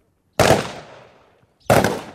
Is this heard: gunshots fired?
yes